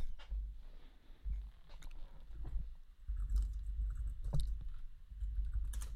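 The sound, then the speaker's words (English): Typing on a computer keyboard to write a chat message, heard as faint, irregular keystroke clicks with soft low thumps between them. “Typing something in our chat.”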